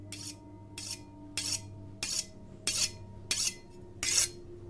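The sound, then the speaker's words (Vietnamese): A knife is sharpened in a kitchen: seven evenly spaced rasping strokes of metal scraping, each a short harsh burst, over a faint steady hum. “Có những hôm thì ông lại nghe tiếng bà ấy mài dao xoèn xoẹt ở dưới bếp.”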